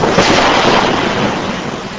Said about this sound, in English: Hard driving rain and a thunderstorm pummel Price County.